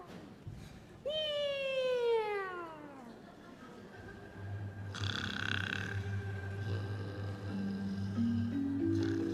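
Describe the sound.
A performer's voice imitates a cat meowing during a Beijing traditional opera and folk-art performance. One loud, drawn-out meow falls in pitch, followed by steadier lower sounds.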